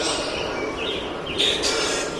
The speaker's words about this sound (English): Common grackle. Common grackle displaying.